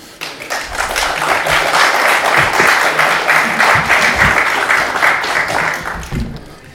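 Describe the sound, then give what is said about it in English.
Crowd applause welcoming a guest at an event in Portsmouth swells in quickly, then holds as sustained, dense clapping before easing off at the end. “so let's give a big hand.”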